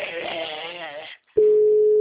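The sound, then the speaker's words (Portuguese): A telephone call connects with a steady single-pitch ringing tone that starts after a voice speaks and a brief silence, holding loud and even until the end. “Agora que tá chamando.”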